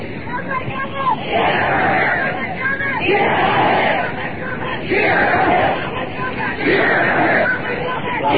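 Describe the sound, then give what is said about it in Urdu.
A large crowd at a religious rally loudly chants slogans in repeated bursts that rise and fall at a fairly regular pace, with shouting voices blending into a dense roar. “ایک minute ذرا نعرے تھوڑے سے کم کیجیے تاکہ میں سفر کر سکوں توجہ کیجیے”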